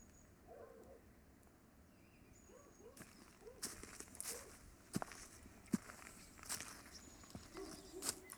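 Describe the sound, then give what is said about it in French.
Footsteps on a stony climbing path: irregular crunching and knocking steps on loose stones start after a quieter stretch and continue as a run of sharp, uneven footfalls over soft outdoor background noise. “les chemins pour grimper sont pleins de pierres. Quand ils marchent dessus, ça donne cette musique spéciale.”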